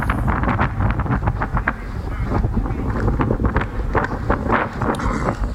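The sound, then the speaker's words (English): Wind blowing hard across a mountain top, a loud, steady roar that buffets the microphone with continuous low rumbling gusts, no other clear sounds standing out. “And what you're hearing is the wind, because the wind is kicking up.”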